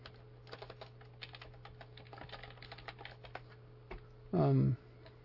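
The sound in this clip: Typing on a computer keyboard, many quick, light key clicks in an uneven patter, then a brief voice.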